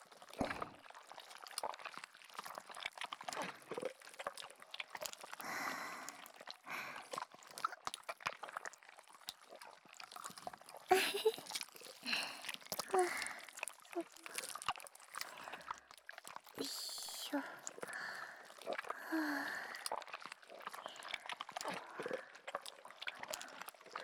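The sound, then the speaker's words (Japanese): Wet, gooey squelching of slime squished all over a body during slime play, many irregular sticky splats and squishes continuing throughout at a moderate level. “ここから先輩の上でスライム遊びしますね。全身をぐちゅぐちゅしていきます。”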